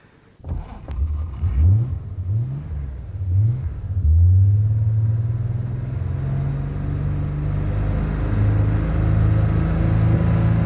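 A car engine starts with a sharp catch, then revs in a few rising surges as the car pulls away, before settling into a steady, loud droning hum as it drives off.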